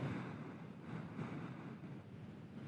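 Steady breathy blowing into a breathalyzer, a soft continuous rush of air lasting nearly three seconds at an even, faint level with no voices.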